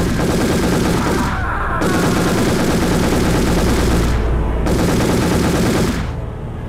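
Rapid gunfire in loud, dense, continuous volleys, shots running together almost without break.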